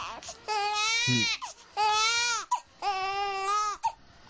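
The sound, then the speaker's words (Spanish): A baby crying in three long, loud, high wails with wavering pitch, separated by short gasping breaths and brief whimpers. “hoy comienzo con una de las situaciones más desesperantes a las que se enfrenta un adulto: oír llorar a un bebé.”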